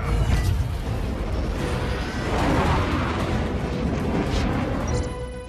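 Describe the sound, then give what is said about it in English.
A big explosion roars as a loud, dense rumble that holds steady for several seconds, without clearly separate blasts. “Big explosion.”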